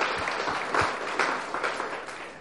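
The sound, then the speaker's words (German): A church audience claps in praise of God during a bilingual service. Dense applause starts at full strength, swells with a few louder claps, then gradually thins and fades. “Let's give God praise, church. Lass uns klatschen für den Herrn.”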